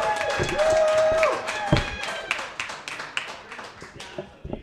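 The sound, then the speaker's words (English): A comedy club audience claps and cheers as a comedian is introduced. A drawn-out whooping voice rides over the opening claps, then the applause thins into scattered hits that fade out. “Make a big round of applause for my friend and yours, Devesh Patel!”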